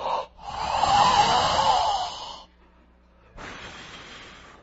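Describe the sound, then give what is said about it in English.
A man exhales forcefully to imitate breathing out onto people. Two long, breathy, hissing exhales are separated by a short pause, and the first is louder and longer. “breathed on them.”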